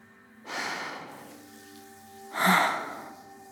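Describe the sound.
Deep breathing from a person relaxing during a shoulder and back massage: a long, airy inhale, then a pause, then a louder, breathy exhale, soft and without speech.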